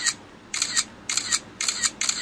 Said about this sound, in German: So klang das früher oder später dann auch mal so, wenn wir Fotos gemacht haben. Und heute klingt das ja meistens so.